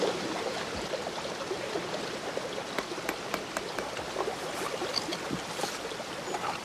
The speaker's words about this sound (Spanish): Deja el papel en el agua y la corriente se lo lleva.